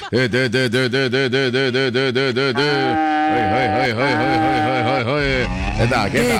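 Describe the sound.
Mooing from a large dairy cow that has recently calved and gives 25 litres of milk a morning, heard during hand milking. Loud, drawn-out harmonic lowing with a pulsing start and steady tones later, while a person talks nearby.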